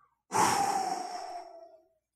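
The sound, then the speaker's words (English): A single long breath pushed into a microphone, a loud, breathy rush of air lasting about a second and a half before trailing off, with no talking. “Now listen, if a human being just breathes into a microphone,”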